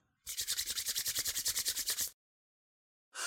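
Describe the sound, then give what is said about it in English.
Hands rub briskly together to warm them, a fast, even run of many dry, scratchy strokes, then silence before another burst starts at the end. “You put your hands near the fire to warm them, to make them warm or you can rub your hands together to warm them.”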